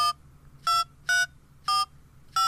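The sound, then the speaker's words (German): Telephone keypad tones as a number is dialed: a series of short, evenly spaced electronic beeps about half a second apart, each a clean tone, heard alone against a quiet background. “Am besten gleich dort mal anrufen.”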